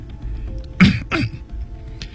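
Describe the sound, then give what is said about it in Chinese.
An old librarian clears his throat with two short, rough, raspy bursts in quick succession, the first slightly louder, with no speech around them. “老图书管理员清清喉咙”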